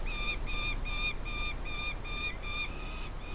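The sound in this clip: Four large, nearly fledged gyrfalcon chicks in a nest squabble over food just brought by a parent, giving repeated high, harsh, harmonic cries in quick succession over a steady low rumble.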